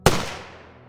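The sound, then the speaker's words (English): A single muffled crack of a .22 rifle shot at a campsite strikes sharply, then trails off in a quick, fading decay. “there was a muffled crack of a rifle shot.”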